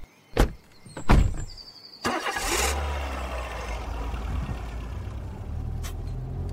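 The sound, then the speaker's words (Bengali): Two sharp door thuds as people climb into a car to flee in a hurry, then the engine cranks into life and settles into a steady, rumbling idle. “ওরা পালিয়ে যেতে গাড়িতে উঠে বসলো অর্জুন ও major.”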